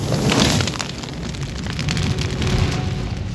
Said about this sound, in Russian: Тело птицы охватывает пламя.